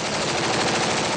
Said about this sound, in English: That is the sound of Iraqi soldiers firing back at militants from the Sunni extremist group Islamic State of Iraq and Syria near Bakuba